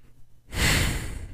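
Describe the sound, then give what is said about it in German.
A single deep breath drawn before diving underwater in a video game. After a quiet start it rises into a soft, airy rush that lasts close to a second, with no voices. “Also atmen wir noch einmal tief durch”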